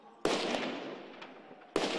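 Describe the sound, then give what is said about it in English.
Gunfire as police shoot at protesters running uphill in Ukraine: two loud, sharp cracks about one and a half seconds apart, with fainter pops between them over a steady noisy wash. “Police shooting as protesters ran up the hill towards them.”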